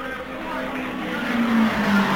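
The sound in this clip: A race car engine drones past on the track late in a race, as a steady mid-pitched hum that swells slightly louder, under a man's running commentary.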